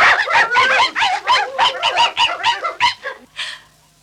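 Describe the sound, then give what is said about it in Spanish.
Soot-covered Dalmatian puppies let out many rapid, high-pitched yaps and yips in a busy string, then the noise thins to a quieter tail at the end. “¿Y estos perros prietos qué hacen aquí?”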